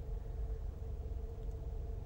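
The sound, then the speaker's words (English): Truck driving past: a faint, low, steady engine rumble with a slight mid-range hum, continuous throughout and with no voices. “That truck just drove by me.”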